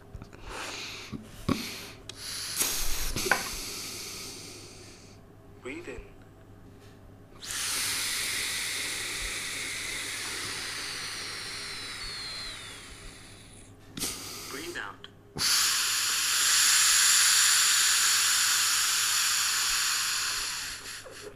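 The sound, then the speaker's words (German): Breathing in and out through the mouthpiece of a breath-testing device makes two long, steady, airy hisses of several seconds each. Shorter rustles, clicks and puffs come before them, and a low hum runs underneath throughout. “Okay, habe ich jetzt gemacht. Also ihn eingeatmet und ausgeatmet.”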